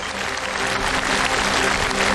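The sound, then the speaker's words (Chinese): Audience applause at a stage show of traditional Chinese opera, as performers are welcomed: sustained, dense clapping that stays loud and even throughout. “首先让我们掌声欢迎四位知音推荐人，掌声有请北京曲剧名家许地老师，”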